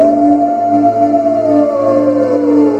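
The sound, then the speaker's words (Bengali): A Norwegian wild fox howls in one long, sustained, loud tone that slowly glides down in pitch, with a low steady hum beneath it. “নরবিজীয় বুনো শেয়ালের ডাক শোনা যাচ্ছে মাঝে মাঝে।”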